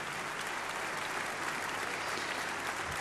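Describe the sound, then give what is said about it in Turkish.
Sustained audience applause after an orchestra concert, with the orchestra members joining in. The clapping is dense and even but fairly faint, and no one speaks. “Orkestra üyeleri de o alkışlara eşlik ediyorlar.”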